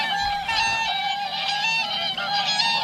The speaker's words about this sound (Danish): Jeg så 12 sangsvaner på vej herind i dag og tænkte, nu er de på vej hjem. Og de lyder meget skønne.